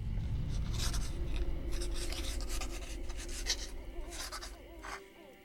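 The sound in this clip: Pen scratching as a letter is written in a bedroom at Raynham Hall: faint, continuous scratchy strokes that fade out near the end.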